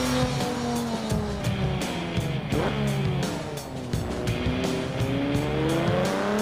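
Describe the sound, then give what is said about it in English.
A sports car engine in a driving video game drones loudly and steadily, its revs repeatedly climbing and dropping through gear shifts with no pauses. “That's actually a sports car driver.”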